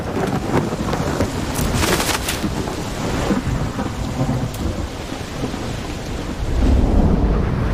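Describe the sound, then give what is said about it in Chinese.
A thunderstorm sweeps over reed beds on Chongming Island, with heavy rain and strong wind making a dense, loud, steady roar and low rumbles of thunder rolling underneath. “崇明岛即将被狂风暴雨吞没，随风摇摆的芦苇无力提供庇护。”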